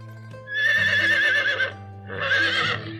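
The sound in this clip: A horse pulling a cart neighs twice, first a long shrill whinny with a wavering pitch, then a shorter one, over steady low background tones.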